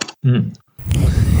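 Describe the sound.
A beer can being ripped open: a brief murmur, a short pause, then a sharp crack of the can followed by a sustained fizzing hiss.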